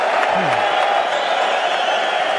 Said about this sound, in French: Et il reçoit chaleureusement les applaudissements ici.